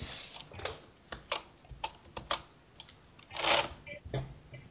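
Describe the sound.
Program code being typed on a computer keyboard, with many irregular, crisp keystroke clicks in uneven bursts, some heavier taps standing out, and a denser flurry of keys toward the end.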